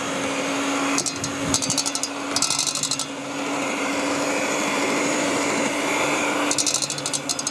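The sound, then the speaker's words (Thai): An electric blender runs at its lowest speed, processing a small batch, giving a steady whirring drone with a low hum underneath and a few bursts of faint high-pitched rattling. “เอาตัวเครื่องปั่นนะคะให้ตัวที่เป็นเนี่ยลงไปก่อนนะคะแล้วก็ปั่นนะคะ สปีดเบอร์หนึ่งนะคะ สปีดหนึ่งก็พอ”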